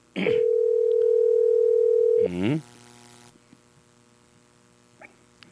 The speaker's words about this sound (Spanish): Estamos llamándolo